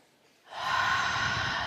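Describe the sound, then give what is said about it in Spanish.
A single long, steady breath from a circular breathing exercise, rising quickly out of near-silence and then holding as an even, airy rush until the end. “Vamos a hacer una prueba. Inhalamos, subimos por la columna”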